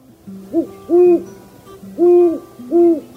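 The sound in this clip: Deep hoots of a great horned owl, a species that nests as early as February: four low, smooth calls in an uneven rhythm. The first is short and softer, the rest longer and louder, over a faint steady hum.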